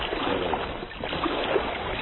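Water sloshing and washing steadily as a boat is paddled hard, a continuous churning wash with no separate strokes standing out.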